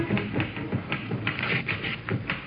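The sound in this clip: Typewriter keys clatter in an office as letters are typed, mixed with the rustle of mail being opened; the quick, irregular taps and paper shuffling stay fairly faint and continue steadily without voices.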